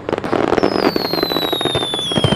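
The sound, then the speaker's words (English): Fireworks exploding at a summer fireworks festival in Tokyo: dense, continuous crackling bursts with no break, while a thin high whistle slowly falls in pitch above them. “Tokyo's fireworks festivals officially started in the Edo era, around 300 years ago, to honor the spirits of ancestors and ward off bad fortune.”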